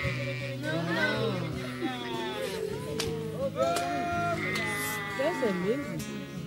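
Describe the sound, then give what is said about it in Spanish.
A flock of sheep bleats as the shepherd arrives, with many overlapping wavering calls at varied pitches that rise and fade over a steady, fairly quiet background. “Ahora llega el pastor de ovejas.”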